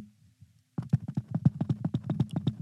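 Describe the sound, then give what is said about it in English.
A buffalo herd stampedes with many rapid, heavy hoof thuds in a driving, uneven rhythm. The thudding starts abruptly after a brief low rumble and stays loud. “That's the herd coming. They ain't talking about no Colorado Buffaloes.”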